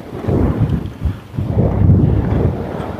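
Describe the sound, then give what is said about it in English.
Wind gusts through a cottonwood tree, a continuous low rushing roar with uneven buffeting swells that rise and ease over about three seconds, with no talk. “I don't know if you can hear the wind in this cottonwood tree.”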